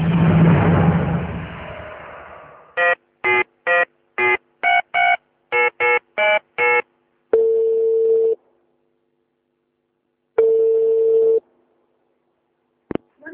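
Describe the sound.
A telephone call being placed: a noisy rumble fades into a fast run of about ten keypad dialing beeps, then two long steady ringback tones separated by silence, ending with a brief click.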